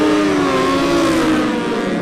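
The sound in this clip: Racing motorcycles, Honda and BMW machines, rev hard at the start of a nine-lap solo championship road race. A loud, continuous engine roar with a steady high whine runs unbroken through the whole clip.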